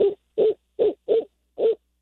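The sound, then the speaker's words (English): Hooting of a barred owl in Iowa: a rhythmic series of short, clear hoots, each a brief mid-pitched note separated by silence, with no voices. “there's another common Iowa owl that people in the last month, perhaps if you've gotten out in the evening, you might have heard them. They're the barred owl. They're the ones that go,”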